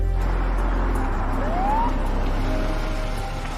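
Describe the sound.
A police car siren gives a brief rising wail as the car arrives with its blue light flashing, heard over a loud, steady low engine rumble.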